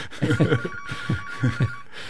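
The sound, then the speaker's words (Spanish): A telephone rings with an incoming call during a live call-in segment. A steady high ringing tone runs throughout, with a few louder bursts rising and falling over it. “Está llamando don Patricio Palma, vamos a ver si le podemos contestar.”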